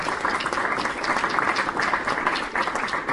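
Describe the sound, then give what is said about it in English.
Audience applause at a political talk, a steady, dense wash of clapping that holds at an even level throughout. “And yeah, I think that deserves some applause”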